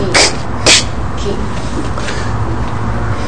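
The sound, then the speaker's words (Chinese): A voice imitates the guttural German CH sound, as in Bach, with two short, harsh, raspy throat bursts about half a second apart over a steady low background. “就像我们这个德文 Bach 啊，很那个 CH 那很重的很啊喉很重的喉咙音”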